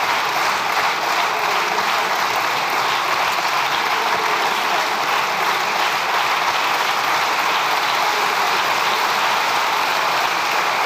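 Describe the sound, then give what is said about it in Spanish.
Socialist deputies in the Spanish Congress of Deputies applaud during the prime minister's appearance. The clapping is dense and continuous, staying even in loudness for about eleven seconds. “Es los aplausos de la bancada socialista a las palabras del presidente del gobierno, de Pedro Sánchez, que lleva compareciendo ya 25 minutos en el Congreso de los Diputados.”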